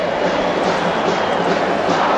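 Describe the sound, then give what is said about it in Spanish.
A steady, dense roar from the home crowd at a River Plate football match as the first half kicks off. It holds loud and continuous throughout, with no breaks. “Y en marcha el partido, ruge el público millonario en el momento en el que comienzan los primeros 45 minutos.”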